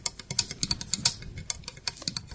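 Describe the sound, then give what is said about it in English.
Fingernails tapping on a small house built from Lego bricks for an ASMR video: many quick, light plastic clicks in an irregular, rapid rhythm, fairly quiet, with no talk. “Here she is quietly touching a little house made of Legos with her fingernails.”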